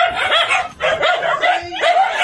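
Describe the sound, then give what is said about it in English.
Many emaciated dogs crammed into a tiny house in western Japan barking and yipping at once, a loud overlapping chorus of high-pitched barks and whimpering yelps with brief gaps. “That is the sound of 164 emaciated dogs that have been crammed into a tiny house in western Japan.”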